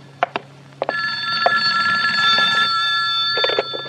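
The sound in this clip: A telephone rings with a bright, sustained electronic trill lasting about three seconds, preceded and followed by a few short sharp taps.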